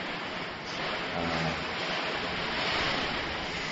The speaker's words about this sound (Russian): Ух, какая-то просто вообще жесть, буря.